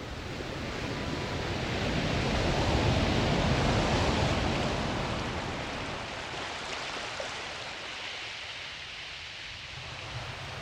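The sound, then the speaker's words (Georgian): Sea waves surging in a steady, broad rushing wash that swells to a fuller peak and then slowly ebbs, heard on their own without voices. “მე კი გამუდმებით მესმის ზღვის ხმა.”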